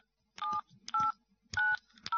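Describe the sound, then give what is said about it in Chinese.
Telephone keypad dialing from someone anxiously calling a roof repair company about a leaking roof: four short touch-tone beeps, each a steady electronic pitch, separated by brief silences. “个人正在焦急地打电话。”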